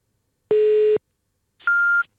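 Two electronic telephone beeps during a call, each a steady pure tone lasting about half a second and separated by a short silence. The second beep is pitched noticeably higher than the first.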